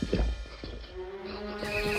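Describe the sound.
A horse whinnies in a loud, drawn-out neigh, with clopping hooves near the start. The horse is ridden by a town's police chief in a fairy tale, and no one speaks.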